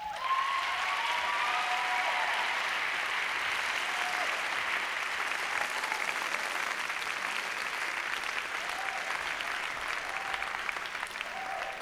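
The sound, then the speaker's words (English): An audience applauds to welcome musicians about to play kitchen music, a long, steady, even patter of many hands clapping that stays level from start to finish. “Please welcome them.”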